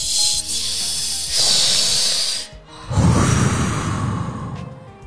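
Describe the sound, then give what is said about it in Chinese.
Slow meditation breathing: long, airy breaths with a soft hissing exhale, heard on their own without talk. “自己每天早上起来十分钟，就什么都不干，就听自己的呼吸就行了。 嗯， 呼气，”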